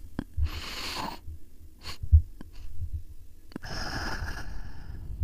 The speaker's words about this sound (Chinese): 我这边也给大家示范一下，就我们连续三次吸气，然后再呼气，大概是这样子。